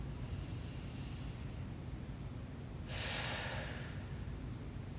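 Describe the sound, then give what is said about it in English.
A deep breath during a guided relaxation exercise, heard as one soft, short rush of air over a steady background hiss. “inhale through the nose, and let it out”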